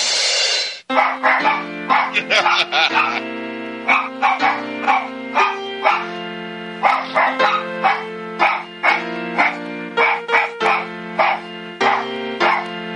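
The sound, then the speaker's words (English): Dogs bark in a played barkathon recording: many short, pitched barks follow one another in a steady, tune-like rhythm at shifting pitches, opening with a brief noisy burst. “Let me hear the barkathon again, just for a second, a little bit of it.”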